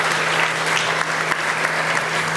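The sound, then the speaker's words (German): An audience applauds at a talk, dense and continuous clapping that holds at a steady, fairly loud level from start to finish. “Also von daher vielleicht einmal klatschen für die Betreiber, dass sie das Thema Sicherheit ernst nehmen.”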